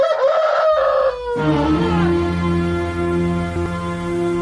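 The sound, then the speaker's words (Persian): A rooster crows at dawn in one long, loud call, its harmonic notes holding steady and then trailing off across several seconds. “هنگام سفید دم خروس سحری”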